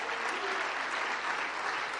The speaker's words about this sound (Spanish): Dale ese aplauso de alabanza al Señor.